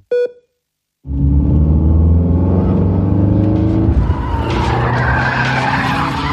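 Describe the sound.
Car tires skidding in a long, loud screech with rumbling engine noise underneath, after a brief opening tone and a moment of silence.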